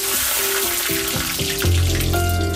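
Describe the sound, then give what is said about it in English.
Butter melting and diced onion frying in a piping hot pan, giving a continuous, crackling sizzle alongside sustained musical tones that shift in pitch. “A piping hot pan. A spoonful of butter melts gently across the surface. Throw in your diced onion and within seconds, the ingredients begin their transformation.”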